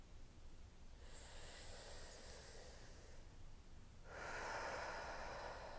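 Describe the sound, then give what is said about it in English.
A deep, slow breath, heard as two long airy hisses separated by a brief pause. The second hiss is stronger and fuller. Both are quiet and there is no speech. “I'm gonna take a deep breath.”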